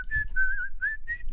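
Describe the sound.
A whistled melody from the interlude of a pop song: clear, pure, high tones in a few sustained notes and short phrases with brief gaps, steady and fairly loud over a faint low rumble.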